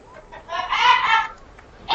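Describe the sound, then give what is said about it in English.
A cartoon woodpecker character's call sound effect plays during a tabletop role-playing game session, a squawky, clucking, chattering burst that swells and fades within about a second, with the start of another burst at the end. “What on earth was that? It was Woody Woodpecker, who does not like something.”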